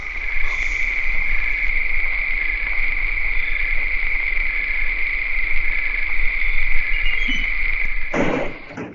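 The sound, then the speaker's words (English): Many crickets chirp together in a dense, loud, continuous high-pitched trill, with rapid pulsing that keeps a steady pace throughout. A short noisy burst breaks in near the end, and no one speaks. “Damn, that's a lot of crickets.”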